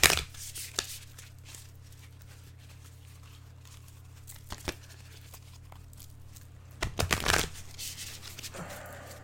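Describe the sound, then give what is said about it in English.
Cards are pulled from a deck with soft papery slides and taps, and a few sharper flicks are scattered throughout. A louder flurry of riffling comes near the end, with no voices. “I just wanted to pull, a few cards from the deck to support today's message.”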